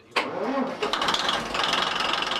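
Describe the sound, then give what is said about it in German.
An old diesel engine starts in the engine room of a former fireboat: after a brief quiet moment it catches abruptly, then settles into a loud, steady rumbling run with a few uneven surges, and no voices. “Im Maschinenraum macht sich Bootsmann Jens daran, den alten Diesel zu starten.”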